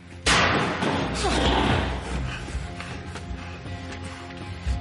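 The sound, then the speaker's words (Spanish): A single heavy metallic thud comes as a person backing toward a door collides with a metal sheet. The loud impact lands near the start and leaves a rough, rattling tail that fades under low, tense background sound. “avanza de espaldas hacia la puerta. Se choca con una chapa.”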